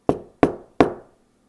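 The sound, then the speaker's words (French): Three evenly spaced knocks sound on a door, each sharp, hollow and clear, with a short fading decay and nothing else heard around them. “Il frappa à la porte du manadier”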